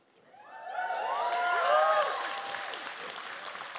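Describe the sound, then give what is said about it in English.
A church audience cheers and claps during a service. The noise swells from near silence to a peak of many voices shouting together, then eases slightly but stays sustained. “You know, they're the only one that cheered of the three.”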